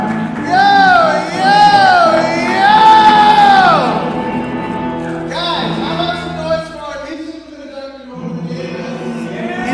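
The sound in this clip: A talk show studio audience cheers, whoops and yells, loud and continuous for the whole stretch, with raised voices shouting over the crowd noise.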